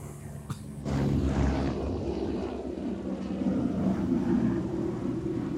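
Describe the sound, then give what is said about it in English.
An aircraft, a plane or helicopter, passes overhead. Its low, rumbling drone swells in after about a second and then holds steady and fairly loud to the end. “Hold for plane.”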